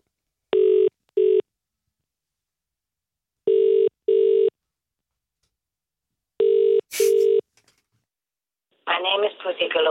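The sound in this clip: A telephone ringing tone is heard over the line: three double rings, evenly spaced and alone. A click follows, then a voice starts speaking.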